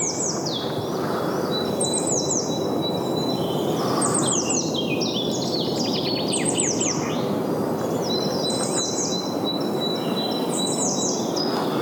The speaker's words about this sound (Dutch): Een galende zang van de zangluister. Vink, koolmees, pimpelmees. Koolmees.